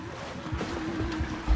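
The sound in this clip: Groundwater flowing through an underground gallery, a faint, steady rushing wash with a low hum running beneath it.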